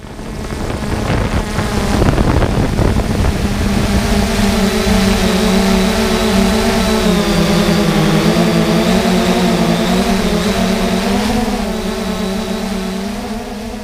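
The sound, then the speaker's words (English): Buzzing whine of an unmanned aerial drone flying and recording video over the Clinch River at Kyles Ford, Tennessee. The loud, continuous propeller drone wavers slightly in pitch over a rough, windy hiss, with no voices. “You heard sounds of a drone, or unmanned aerial vehicle, flying and recording video over the Clinch River in Kyles Ford, Tennessee”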